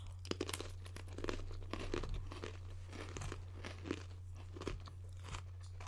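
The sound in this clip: Crunching and chewing of a cracker topped with thick, pre-sliced gouda cheese. Many crisp, irregular crackles repeat throughout over a steady low hum, with no talk.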